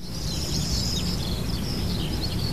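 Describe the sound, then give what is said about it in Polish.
Birdsong outdoors on a sunny day: a steady stream of high, quick chirps and trills that carries on throughout over a low background rumble. “ptaki śpiewają”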